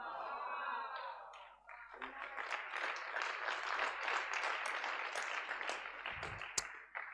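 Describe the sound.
Audience clapping at a church fire conference, faint sustained applause that rises after a brief voice and continues evenly as a dense patter.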